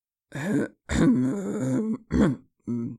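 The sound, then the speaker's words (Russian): A human voice imitates a bear coughing with four gruff, throaty bursts, each a voiced grunting cough separated by short silences. “Снова кашлянул несколько раз медведь.”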